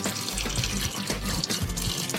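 Water runs from a tap as hands are washed clean of biscuit dough. The splashing hiss is steady and continuous, with no talk.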